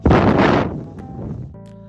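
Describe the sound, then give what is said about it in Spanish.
A voice imitates blowing at the clouds with one strong, breathy rush of air lasting about half a second, which then drops away into quieter, faint tones. “Jajam salió, vio que seguía nublado y le sopló a las nubes volteó al cielo y le hizo.”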